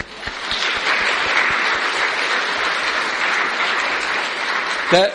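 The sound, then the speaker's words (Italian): Loud applause from a crowd at a festival held in devotion to the Madonna, a dense continuous clatter of many hands that holds steady for several seconds before a brief extra sound right at the end. “si meritano un grande applauso.”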